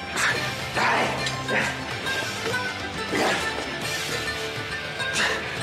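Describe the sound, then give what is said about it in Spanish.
Punches and struggling in a fight inside a communal jail cell come through as several heavy, loud thuds and smacks spaced irregularly over a continuous scuffling noise. “Alex corre hacia Arquímedes y le pega puñetazos. Forcejean.”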